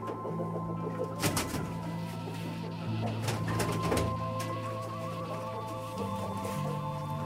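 Hens clucking in a henhouse during an evening egg check, with a steady series of soft, mid-pitched calls and coos that continue without talk.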